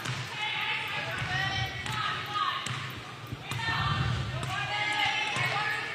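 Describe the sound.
A basketball is dribbled on the court during a women's basketball game. A few sharp bounces thump beneath continuous commentary.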